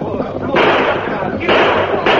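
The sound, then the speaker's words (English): Gunfire in a radio western chase scene with a rider fleeing on horseback: a few abrupt, loud blasts each leave a sustained noisy roar, with voices around them. “He's spurring his horse, trying to get away. You on the black. Rein up or we'll blast you full of lead. He's shooting.”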